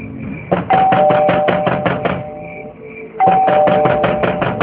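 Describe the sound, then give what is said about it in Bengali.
An electric doorbell is rung over and over at an apartment door late at night, giving two long bursts of rapid buzzing rings separated by a short pause. “কে কে আপনারা এভাবে কেন bell বাজাচ্ছেন?”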